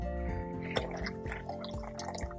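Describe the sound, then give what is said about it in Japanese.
Hot water being poured from a kettle back into a pot, a soft running splash with a few sharp knocks of metal, set against a steady humming tone throughout. “このケトルに一回注いだお湯をね、もう一回ポットに戻して、もう一回沸かした方が良さそうですね。”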